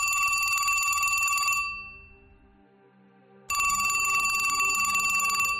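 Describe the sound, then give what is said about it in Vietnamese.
A telephone on a bedside table rings loudly past midnight in two bright electronic bursts, with a quieter fading pause between them. “điện thoại trên tủ đầu giường lại cứ reo inh ỏi”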